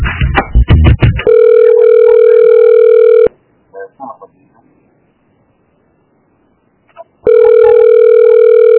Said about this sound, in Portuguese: vou passar uma ligação pra ti, tá? Vou passar uma ligação.